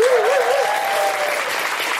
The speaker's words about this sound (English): A big round of applause for everyone today who came and communed with us here in the audience and was here at a live Guilty Feminist event.